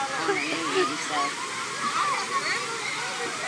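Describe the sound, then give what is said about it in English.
Water fountain jets spray up in a steady, rushing hiss of splashing water, with a child crouched over one of the jets; voices talk over the continuous spray. “Did she walk under any of the fountain things? She's wet. She's stooped down right now on top of one of those that sprays up.”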